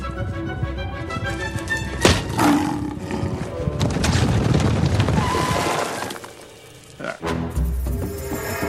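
A tiger roars in a dubbed animated film scene, a long, loud, rumbling growl over dense layered effects, easing briefly before a sharp burst resumes the commotion.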